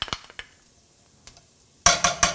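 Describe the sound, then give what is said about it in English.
Utensil clinks and pan noises as butter goes into olive oil and garlic in a pan for curry mussels: scattered light taps at first, then a short run of loud, bright clatters near the end. “So I've got olive oil in here. I'm going to add a little butter.”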